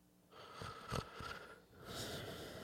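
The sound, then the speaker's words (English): A person imitates a slight snore during sleep: a few soft, breathy, rasping snorts on the breath, quiet and rough, rising and falling in short swells. “Let's say there's a slight snore.”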